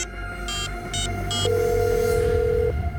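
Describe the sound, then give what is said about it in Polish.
Telephone ringing: three short, high beeps, then one long, steady ring tone, over a constant low hum. “Zadzwonił z prośbą o wyjaśnienie.”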